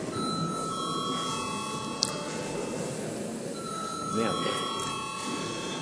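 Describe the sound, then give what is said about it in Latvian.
A bell rung in a parliament chamber before a vote produces steady, sustained electric ringing tones. The tones break off briefly partway through and then resume, over a low room murmur. “Paldies, lūdzu zvanu.”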